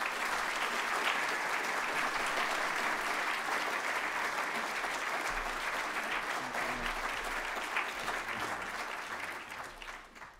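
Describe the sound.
Audience applause welcoming a speaker at DTS, a sustained, dense clatter of many hands that stays full and steady for about ten seconds before tapering off at the very end.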